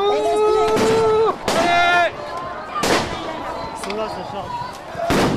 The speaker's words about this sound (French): Explosion. La police charge la queue de cortège. Tire de grenades lacrymo.